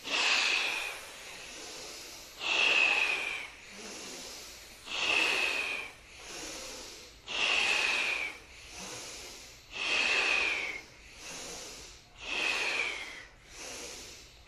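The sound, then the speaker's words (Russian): Forceful breathing in a kriya meditation: sharp exhales, blown out as if putting out a candle. Six loud, hissing breaths come at a steady pace, with softer breaths between them, and no talking. “задувание свечи, вдох. Мощнее вдох.”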